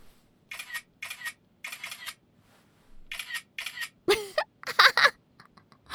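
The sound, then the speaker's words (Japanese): Shutter clicks of a single-lens reflex camera taking many photos in quick, irregular bursts, each click crisp and separated by short pauses, with a louder cluster near the end. “なーに、いきなりめっちゃ撮るじゃん、かわいい。”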